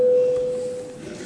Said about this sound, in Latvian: Paldies, lūdzu zvanu.